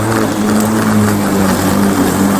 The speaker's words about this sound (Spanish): moto acuática